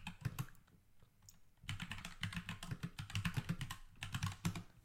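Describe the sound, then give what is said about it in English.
Keystrokes clatter on a computer keyboard in quick, irregular bursts. A short pause breaks the typing early on before it resumes and continues steadily to the end. “Let me type that in.”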